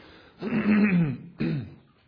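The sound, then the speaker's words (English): Two throat clearings: a longer, rough, gravelly rasp lasting almost a second, then a shorter, sharper one after a brief pause, both loud against near silence. “excuse me, if I can clear my throat here”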